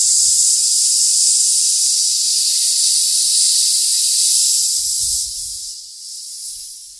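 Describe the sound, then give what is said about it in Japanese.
A long exhale pushed through the teeth as a continuous sss hiss during a breathing exercise. The bright, airy sound holds steady and loud for about five seconds before tapering off. “今度はですね、スーッというように音を出しながら吐き切っていきますね、吸って吐き切ります。”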